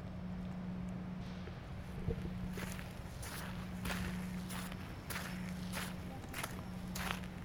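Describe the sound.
Footsteps of people walking outdoors through a quiet industrial area, a steady run of many crisp steps at walking pace over a low, constant hum.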